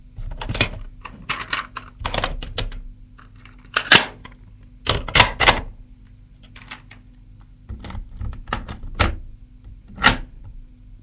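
Tape recorder being set down on an armchair armrest and readied for use, heard as many sharp clicks, knocks and rattles at irregular intervals, with a few louder thumps and no voices.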